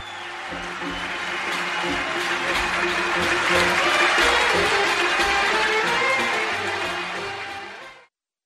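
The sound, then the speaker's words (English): A concert audience applauds and cheers as Umm Kulthum walks onto the stage. Thick, continuous clapping swells toward a peak midway, eases slightly, then cuts off abruptly near the end. “applause tells us that Umm Kulthum has walked out onto the stage.”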